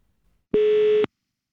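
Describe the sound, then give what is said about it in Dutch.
A telephone line tone sounds while a company's consumer service number is being called: one flat, steady mid-pitched beep lasting about half a second, alone in near silence, with a brief faint rumble before it. “Dat ik dacht, ik ga Garden Gourmet even bellen.”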